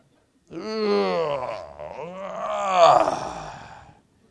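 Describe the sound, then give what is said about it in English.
A voice imitates the groan of someone getting out of bed in the morning. It is a single drawn-out moaning vowel of about three and a half seconds that dips in pitch midway, then swells louder before fading. “Some of us are old enough now that when you get up in the morning to get out of bed, there is a groan.”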